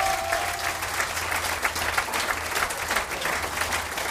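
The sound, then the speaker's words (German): Audience applause for stage performers at a live show: dense, continuous clapping that stays level and steady for about four seconds without a break. “Ja, da gehört auch mal Applaus”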